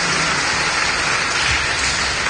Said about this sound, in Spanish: Hagamos un fuerte aplauso y comam Dios.